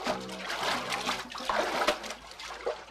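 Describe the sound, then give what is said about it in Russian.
Water splashing as a man runs into the sea from a pebble shore and dives. Irregular splashes and sloshing churn come in several bursts at moderate loudness. “Смотрит по сторонам, быстро вбегает в воду и ныряет.”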